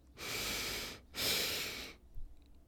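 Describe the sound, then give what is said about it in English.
Two long, deep breaths during a guided breathing exercise, each a loud, airy rush lasting nearly a second, separated by a short gap and followed by quiet. “Hold it and exhale.”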